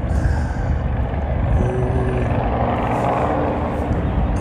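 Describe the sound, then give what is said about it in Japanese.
A helicopter flies low overhead with a loud, continuous rumbling drone that stays steady throughout, and a faint tone briefly rises out of the noise midway. “あれってもしかしてウーバーかな、なんかすごいすごいなんか低くヘリコプターが飛んでる”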